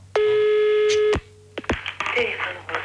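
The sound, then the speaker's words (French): A telephone call being dialled: a steady, loud electronic tone holds for about a second, then a few sharp clicks follow and a voice begins speaking. “Téléphone”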